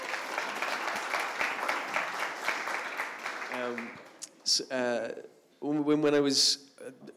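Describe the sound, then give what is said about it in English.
Audience applause welcoming a guest to a morning gathering, dense steady clapping from many hands that fades after about three and a half seconds, then a voice speaks alone. “could we just put our hands together to welcome Jonny this morning?”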